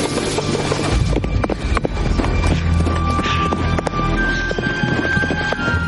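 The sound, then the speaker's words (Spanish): Horse galloping through an arid valley in a Western film, rapid hoofbeats blended into a loud, dense and continuous wash of sound. “Las horas pasan y Gideon sigue galopando.”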